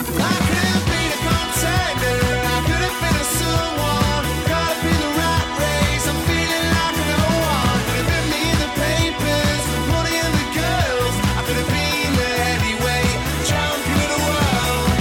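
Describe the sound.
Band music plays loud and full throughout, with a steady, driving drum beat under layered instruments and no spoken voices.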